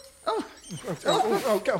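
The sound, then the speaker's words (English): A working dog belonging to a seller's solicitor gives a short run of whining, yelping cries, arching up and down in pitch, moderately loud, during a property deal. “What is this stupid dog doing? Just instinct, I'm afraid, guiding you towards the pen.”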